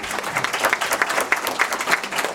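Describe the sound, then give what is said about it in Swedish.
Audience applause at a local community meeting with politicians in Floby, Sweden: dense, steady clapping from a crowd, moderately loud, with sharper individual claps standing out throughout. “Det tycker jag är värt en applåd.”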